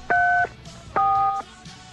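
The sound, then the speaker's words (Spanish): Telephone dialing tones on a phone line: two steady electronic beeps, each about half a second long, separated by a short gap, alone with no talk. “ya que escucho el teléfono”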